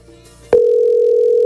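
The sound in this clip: Telephone call tone on a line nobody answers: a short click, then a loud, steady single-pitch tone that holds unbroken to the end.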